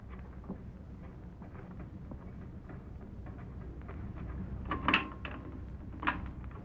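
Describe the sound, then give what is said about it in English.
A safe door being opened: a low, faint rumble of movement broken near the end by two sharp metallic clicks. “Don't argue. Open that safe. Sure, if you say so.”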